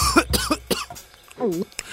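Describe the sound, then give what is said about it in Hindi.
Coughing from someone choking on a mouthful of food stuck in the throat: a few harsh, abrupt coughs in quick succession, followed by a strained, throaty voiced sound. “वो निवाला जो उसके मुंह में था गले में ही अटक गया। खांसने लगा”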